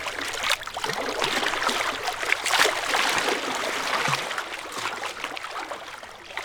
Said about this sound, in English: the sound you're hearing right now is one of our most popular requests, is the soothing sound of Lake Michigan.